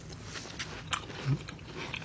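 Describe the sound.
A faint, soft bite into a plain raw tomato during a taste test, with a short moist crunch or two against a quiet background.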